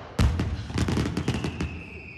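Fireworks from a box going off: a sharp opening blast followed by many quick crackling pops and bursts, loud and busy, with a thin whistling tone lingering faintly toward the end.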